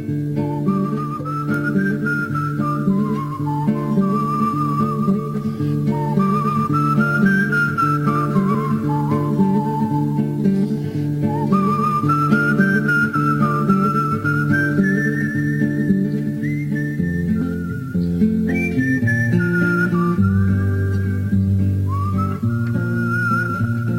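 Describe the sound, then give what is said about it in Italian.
Melodic western-style whistling carries a lilting tune in long gliding phrases over sustained low instrumental chords, steady and prominent throughout. “il fischio western più famoso del mondo”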